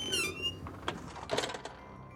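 A window slides gently open in a second-floor tatami room, with brown paper stuck over it. A high squeak comes first, then soft rubbing and light knocks, all fairly quiet.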